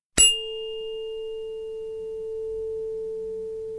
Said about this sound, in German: Ich schlage die Stimmgabel trotzdem mal an, für alle, die es noch nicht kennen, und dann solltest du im Mikrofon auch den Kammerton A hören.